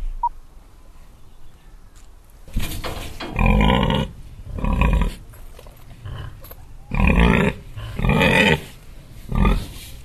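A pig grunts on a farm, with several loud, low, rough grunts coming in clusters separated by quiet gaps.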